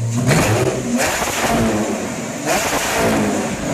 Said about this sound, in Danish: den der hedder TSR, ja. den lyder sådan her, når den bliver startet op.